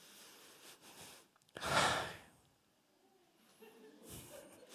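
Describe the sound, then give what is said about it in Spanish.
A preacher breathing deeply in the middle of a sermon, with one loud, long exhaled breath followed by quieter breaths and a few soft breathy sounds, no words. “yo respiro para poder continuar”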